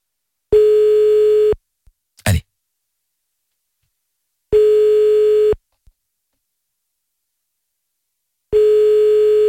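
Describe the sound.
Ringback tone heard while an outgoing telephone call rings: three steady beeps of a single mid-pitched tone, each about a second long and spaced about four seconds apart. A brief click and scrape fall between the first two beeps.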